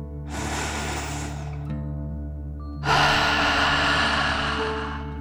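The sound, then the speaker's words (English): A deep breath in and out during a children's meditation: a long breathy inhale, a short pause, then a louder, longer exhale over a steady low background drone. “Are you ready to take one more deep dragon breath? Here we go. Deep breath in and out.”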